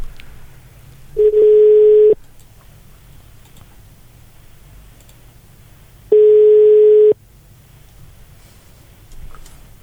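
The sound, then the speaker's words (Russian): Telephone ringback tone while dialing a holiday resort: two steady, mid-pitched tones, each about a second long and separated by a pause of roughly four seconds, over faint line hiss. No one speaks. “Ну, давайте наберем базу отдыха «Изумруд».”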